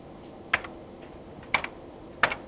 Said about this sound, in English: Just type it out, explain where it is a bit later. Type that in for me, ZMUD.